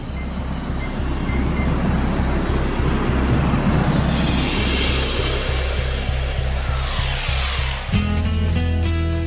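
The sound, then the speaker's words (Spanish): Rumble of an orange line metro train riding between stations: a steady, loud, low roar with hiss. Near the end it shifts to a stronger hum with a tonal motor whine. “En la estación Roosevelt tomamos la línea naranja del metro y llegamos a la tercera parada, la estación de Quincy.”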